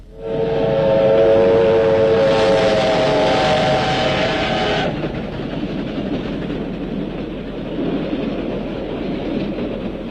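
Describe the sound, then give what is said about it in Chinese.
A military train speeds past at night, a loud, steady whistle blaring for about five seconds over a roaring rumble, then cutting off while the rush of the train carries on. “一列军用火车在夜色中奔驰而过，林彪在车厢里正看书”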